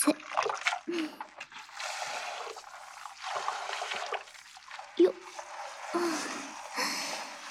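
Water poured over hair to rinse it, heard as a series of irregular splashing and trickling bursts with short gaps between the pours.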